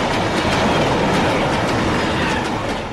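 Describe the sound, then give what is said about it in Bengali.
A railway locomotive rushes along the track in front of a bungalow, a loud, steady, roaring rumble with clattering wheel noise that holds throughout, with no voices. “আমার বাংলোর সামনে দিয়ে যে রেলপথ চলে গেছে, কুমুদিনী তার উপরে গিয়ে দাঁড়াতে না দাঁড়াতেই একখানা ইঞ্জিন হুড়মুড় করে একেবারে তার দেহের উপরে এসে পড়ল।”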